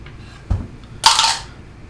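A four-sided die is rolled during a tabletop role-playing game: a dull low thump, then a short, bright clattering rattle that fades quickly, alone without talk.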